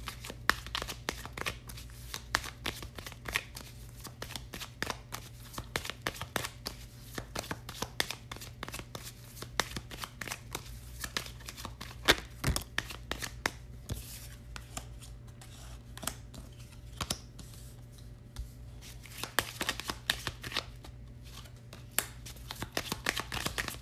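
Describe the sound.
Cards are shuffled and dealt for a five-card reading, a long run of many soft riffling snaps and flicks at an uneven pace.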